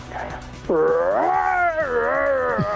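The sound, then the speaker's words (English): A man's voice imitates a Wookiee roar: one long, loud, warbling growl that lasts about two seconds and dips down at the end. A quieter, rougher murmur comes before it. “And his Wookiee impression sounds like this.”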